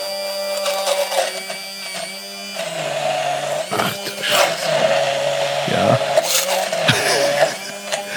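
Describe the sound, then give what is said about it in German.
A stick blender purees a mixture with a steady, high motor whine, holding a constant tone throughout while the pitch and grinding texture shift briefly as the blade moves through the food. “So, nun der Zauberstab. Mhm. Oh, das Kabel reicht nicht ganz. So kannst du es sehen, dass ich wirklich püriere. Ja. Ich glaube, man hört es auch jetzt.”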